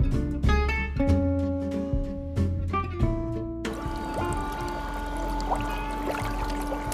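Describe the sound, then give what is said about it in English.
Bubbling water in a foot bath starts partway through as a steady, churning hiss and continues to the end, while sustained musical notes play in the background from the start. “I don't know if you can hear that, but that's the sound of a foot bath.”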